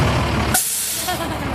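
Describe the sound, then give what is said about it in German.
A red fire engine arrives with a loud, broad air-brake hiss that cuts off abruptly in a sharp release, followed by a quieter low rumble. “Dann biegt das knallrote Feuerwehrauto um die Ecke.”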